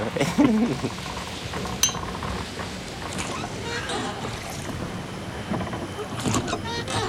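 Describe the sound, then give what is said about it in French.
A small boat, a dinghy, moves away on a calm night sea, giving a soft, steady swishing and lapping of water that stays fairly quiet and even throughout. “Oh, regarde. Le canot, là. Le canot, il s'en va.”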